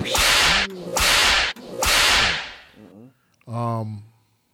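Whip lash sound effect: three broad, hissing lashes in quick succession, each about half a second long, followed by a short voiced harmonic sound.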